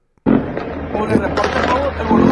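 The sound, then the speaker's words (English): Minigun fire with tracers from a helicopter firing on a cartel: a dense, continuous crackling roar of rapid shots that starts abruptly after a brief silence and holds loud and steady to the end. “That's a helicopter firing on the cartel. That is a helicopter.”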